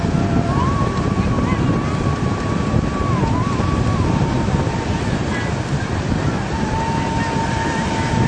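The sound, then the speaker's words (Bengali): Sea waves wash onto an eroding coastline beside a tamarisk grove, a continuous dense roar with heavy wind buffeting throughout. “এই যে সাগর দেখতেছেন, এখানে কিন্তু এক সময় সাগর ছিল না।”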